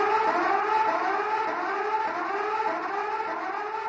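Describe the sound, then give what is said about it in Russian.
A very loud siren blares with a steady, harmonically rich wailing tone that holds at full strength through the whole clip, with no voices. “Сирена взорвала тишину. Очень громкая, такая, от которой подскакиваешь на месте.”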